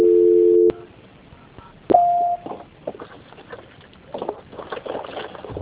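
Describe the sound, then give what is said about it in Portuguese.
Telephone line tones during a call transfer: a steady tone cut off after under a second, then a short, higher beep, followed by faint, murmuring line noise. “eu vou transferir o seu contato para o controle de qualidade, que vai dar continuidade à sua contratação, tá bom?”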